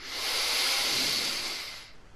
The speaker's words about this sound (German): Das Gleiche noch einmal. Tief einatmen